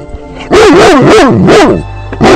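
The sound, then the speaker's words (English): A dog barks in a rapid run of about five loud, yowling, tonal barks that waver up and down in pitch, heard on their own. “We always give the dog the last word because, you know, dog spelled backwards is God.”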